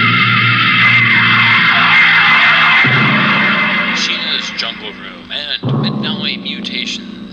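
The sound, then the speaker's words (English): A rocket ship's jets blast off in a loud, deep, continuous roar, with grinding rumble throughout and hissy, fluttering textures in the later seconds. “I kinda like to be near the jets when they blast off.”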